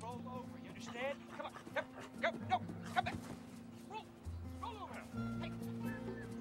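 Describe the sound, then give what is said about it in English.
A dog being trained in a backyard garden gives short whimpers and yips in brief bursts of varying pitch over sustained background tones. “He's training the dog.”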